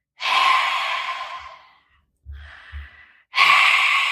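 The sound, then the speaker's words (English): A person imitates heavy breathing with three loud, drawn-out breaths separated by short pauses, rough and airy, with no talk over them. “all of a sudden I hear,”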